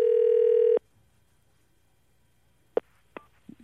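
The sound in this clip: A telephone dial tone sounds as a call is placed: a steady, loud, buzzy tone lasting under a second, then quiet, then a few short faint clicks or beeps.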